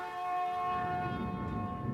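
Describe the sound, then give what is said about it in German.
A 1928 tram railcar runs on a tram museum's outdoor grounds, giving off a steady, ringing tonal hum over a low rolling rumble that builds slightly and continues without a break, with no voices. “Ich darf hier jetzt noch eine Ausfahrt auf dem Außengelände des Straßenbahnmuseums machen. Wir sind mit einem Triebwagen von 1928 unterwegs und es geht ganz gemütlich durch die Landschaft.”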